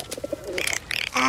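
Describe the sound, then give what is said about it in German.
A pigeon coos in short, soft, low pulses, followed by brighter, higher bird calls in quick bursts, with no talking. “das ist eine Taube.”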